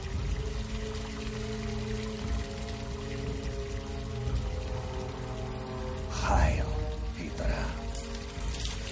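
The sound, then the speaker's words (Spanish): Water pouring from an open sink tap and filling the basin, a steady rushing hiss beneath a sustained musical score, with a brief louder surge of splashing near the end. “Abre el grifo.”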